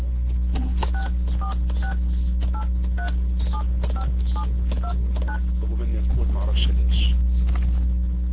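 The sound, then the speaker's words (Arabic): Telephone keypad dialing tones: many short beeps in an uneven rhythm as a number is keyed in, sounding over a steady low hum. “أستأذنكم أتصل من الهاتف الآخر.”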